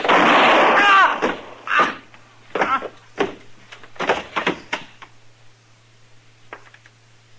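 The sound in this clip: Revolver gunshots ring out as a few sharp, loud bursts with short decaying tails, spaced irregularly over several seconds and fading toward the end.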